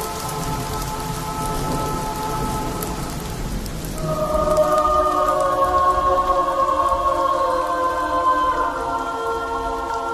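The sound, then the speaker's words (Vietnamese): Rain pouring down as a steady hiss of drops that swells noticeably louder about halfway through, becoming a heavier downpour. “Dũng Đình Dung vừa thở hổn hển vừa bò, chợt thấy trên mặt có giọt nước rơi, rồi hai giọt, rồi rào rào rào. À, hóa ra trời đổ mưa.”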